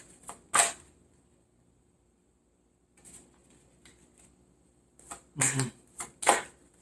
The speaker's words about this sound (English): Let me have seven cards for Virgo, please. May I have seven cards for Virgo?